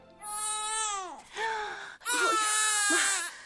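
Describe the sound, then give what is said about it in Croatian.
A baby crying in three high, wailing bursts. The first is long and falls in pitch at its end, then comes a short sob, then a loud, sustained final wail. “Faunčić je plakao.”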